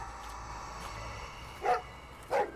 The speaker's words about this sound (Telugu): ఆ కుక్క వెనక నుండి గట్టిగా అరుస్తోంది.